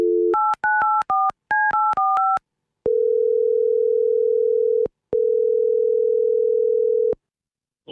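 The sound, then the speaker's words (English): A telephone tone sounds briefly, then a quick run of dual-tone keypad beeps dials a number. Two long, steady tones follow, separated by a short pause. “Okay. Let's call up Jasper.”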